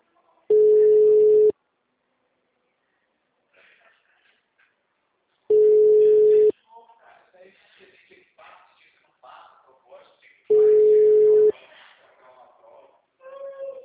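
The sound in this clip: Ringback tone of an unanswered telephone call: a steady, mid-pitched tone sounds three times, each lasting about a second with long gaps between, while people talk in the pauses.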